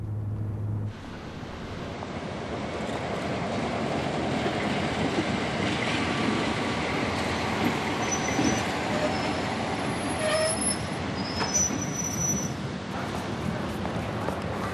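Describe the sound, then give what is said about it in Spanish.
A train arrives at a station with a steady, loud rumble of rolling wheels and cars that lasts throughout, joined later by several brief, high-pitched squeals of the wheels. “El tren de Rainer Hess llega a la estación y ambos se dirigen al campo de concentración.”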